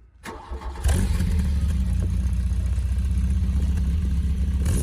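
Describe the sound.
A VW Golf 1 GTI's transversely mounted 1781 cc four-cylinder, 112 PS, is started: a brief crank after some faint clatter, then it catches and settles into a steady, even, low idle rumble.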